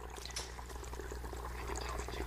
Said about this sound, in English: the sound of the water